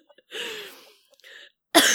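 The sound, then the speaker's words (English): A few harsh coughs after choking on spit: a longer rough hack, a softer short one, then a loud sharp burst to finish. “Oh, God. Excuse me. Oh, I'm choking on my spit.”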